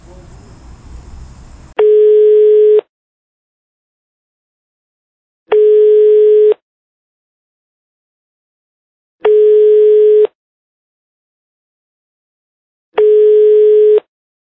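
Telephone ringback tone while a call is being placed: four steady, evenly spaced tone pulses, each about a second long with longer silences between, following a short burst of low noise at the start.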